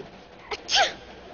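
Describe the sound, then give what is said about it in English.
A single sneeze from a person who is cold: a brief catch of breath, then a sharp, loud burst that fades within a moment, surrounded by quiet. “You wouldn't be sneezing if you weren't cold.”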